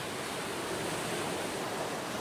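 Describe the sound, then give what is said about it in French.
Sea waves washing steadily, a continuous broad hiss of surf with no distinct swells or breaks, level and unchanging throughout, with no voices. “Je regarde la mer.”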